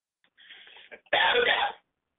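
Throat clearing followed by one harsh, louder cough, both brief and isolated against silence.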